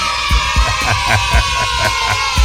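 An audience cheers and whoops in a series of short, rhythmic bursts over a constant crowd din.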